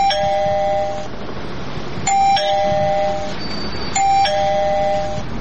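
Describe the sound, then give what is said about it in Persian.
A battery-powered doorbell rings three times, each ring a bright electronic chime sequence of about a second, over a low, steady background rumble. “صبر کو، زیاد زنگ نزن که پالتیش خلاص میشه.”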